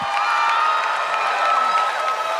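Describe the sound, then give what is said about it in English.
An audience welcomes a guest speaker with applause and cheering, a steady, loud wash of clapping and shouts that carries on without a break. “So will you give a huge welcome and hand together for Louie Giglio?”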